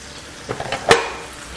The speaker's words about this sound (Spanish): Y ahora vamos a poner el tomate rallado, al que vamos a poner también un poquito de sal.